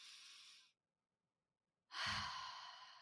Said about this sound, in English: let's breathe in and breathe out first.